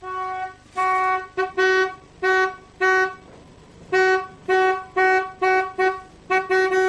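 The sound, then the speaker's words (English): Car horns honk many times in short, irregular bursts, each a loud, steady-pitched toot with brief gaps between, and no talk over them. “he'll try to pinpoint the horn's position and work out in which direction they're traveling”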